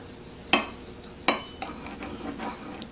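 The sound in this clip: Knife cutting into a cooked spicy dish: two sharp cutlery clinks, then a few softer scrapes, all faint and with no talk.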